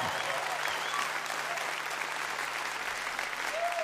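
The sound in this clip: Audience applause welcoming a band onto the stage at a live music show, a dense, steady wash of clapping that holds an even loudness throughout.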